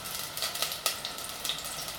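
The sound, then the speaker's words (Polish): Meat frying in a pan gives a faint, steady sizzle with a few scattered crackles and pops rising out of the hiss. “dźwięk takiego smażenia będzie taki bardziej ostry, należy zdecydowanie przemieszać po prostu całą tą zawartość”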